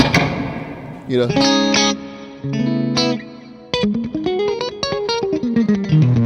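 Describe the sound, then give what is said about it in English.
An electric guitar is played through a basic reverb setting on an effects pedal. Several struck chords ring out with long, smeared tails, then a quicker run of single notes washes together. “So I have a basic reverb that's kind of just like,”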